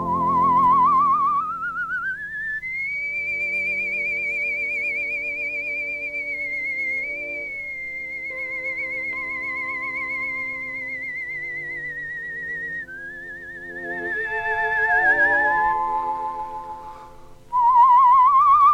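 A man whistles a slow melody in long, high, sustained notes with a quivering vibrato, warbling like a warbler chick, over soft, steady accompanying music.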